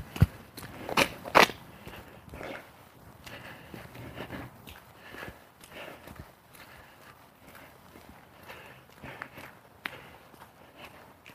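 A person's footsteps while walking, a series of uneven scuffing and crunching steps at a loose rhythm, with a few sharper, louder thumps early on and softer steps after.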